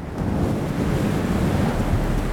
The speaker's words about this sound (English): It begins on a dark night, when a fierce desert wind howled through the streets of Memphis, rattling doors and shutters.